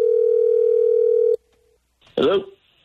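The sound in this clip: A telephone ringback tone sounds on a prank phone call: a steady, buzzing tone holds for over a second and cuts off, a brief quieter tone follows, then a voice answers.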